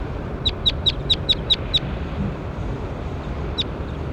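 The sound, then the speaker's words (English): A bird call: seven short, high chirps in a quick, even series, then a single matching chirp after a pause, over a steady, low background hiss. “That was bird 21.”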